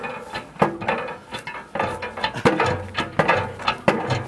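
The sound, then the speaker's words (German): A hand pump with a long pump arm is worked in steady strokes. Each stroke brings a hollow mechanical clank with creaks and rattles, repeating at a regular rhythm for several seconds. “Das ist doch nicht umsonst Pumpe. Also pumpen!”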